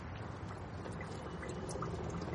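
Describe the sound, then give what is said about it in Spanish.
Diesel fuel pours from a hose into a bucket in a steady, unbroken gush of liquid noise, quiet and even throughout, with no talk. “El gasoil sale y ella pone la manguera en el cubo.”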